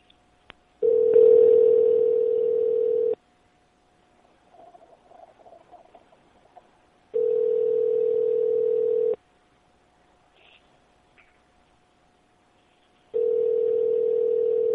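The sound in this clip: Ringback on an outgoing telephone call: after a faint click, three long buzzing rings of about two seconds each sound at a steady loud level, separated by quiet gaps with faint line noise.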